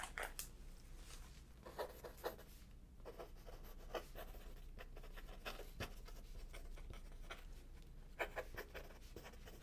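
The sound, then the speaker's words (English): A pen scratches across paper in many short, quick strokes with small pauses between them. The writing is quiet and close, over a soft steady hiss. “Let me write that down.”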